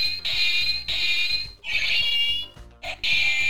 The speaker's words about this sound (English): you mentioned the sound of the lightsaber. So our kids got a lightsaber.